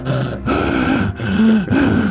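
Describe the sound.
A man's voice imitates a hungover football player gasping for air during the Super Bowl, giving a few loud, strained, voiced gasps that run together with barely a pause between them.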